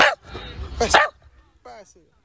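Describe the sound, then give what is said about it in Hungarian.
A small dog barks on command, a burst of loud, sharp barks followed after a pause by a couple of fainter yips. “Jó, Csibi beszél, és kapott is érte most éppen jutalmat. Szóval jókat lehet Csibivel beszélgetni? Igen, Csibi elég hangos kutyus, szereti hallatni a hangját.”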